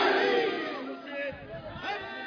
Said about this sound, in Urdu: نعرہ حیدری، حیدری، حیدری.